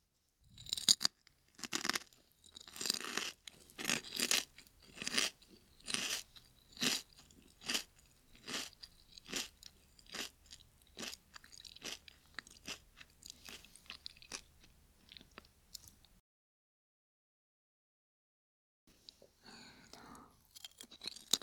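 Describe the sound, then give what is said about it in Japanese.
Lightly salted potato chips being eaten: many sharp, crisp crunches in a steady chewing rhythm, fairly loud and close, followed by a few seconds of silence before a faint rustle at the end. “しょっぱいのちょっと欲しかったから。やっぱりポテチ薄塩だよね。”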